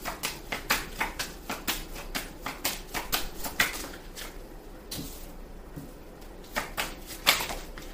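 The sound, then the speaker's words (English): Playing cards are drawn and shuffled from a deck, making many soft, irregular taps and papery flicks in quick clusters, with a brief lull partway through. The sound is faint and there is no talk. “I want to take some more cards.”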